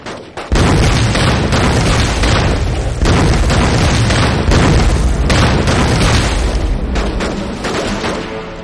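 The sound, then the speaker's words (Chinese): Hand grenades explode in a wartime battle. Many loud booms and bursts merge into a dense, continuous roar, with sharp blasts standing out at intervals. “把刚才扒的鬼子的手雷手榴弹全部准备好，我们用他们的东西炸死他们。 兄弟们，手榴弹准备。”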